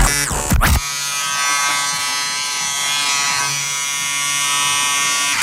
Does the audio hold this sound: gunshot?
no